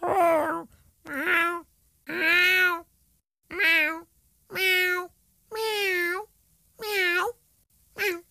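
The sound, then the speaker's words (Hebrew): A cat meowing: eight drawn-out meows with bending pitch come one after another in a steady rhythm. Each one is loud and clear, with short silent gaps between them. “אך צליל החתול כמעט בכל מקום בעולם הוא מיהו.”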